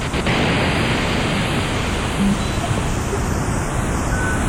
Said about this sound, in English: Let me return to another fundamental sound generated by the synthesizer. This is white noise, so-called.